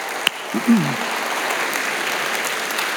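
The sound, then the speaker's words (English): Applause from a church audience rises after a sharp click and a brief vocal sound, then continues as an even, moderate wash of clapping to the end. “Can we just make some noise here for the Foxborough campuses? We're getting ready for them.”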